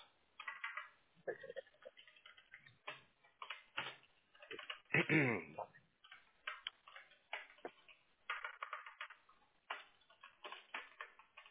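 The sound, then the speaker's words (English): Thumbs tap out a text message on a phone in quick irregular bursts of light clicking taps, with short pauses between the runs. “My pre-made text is like down right now, so I got to type it out.”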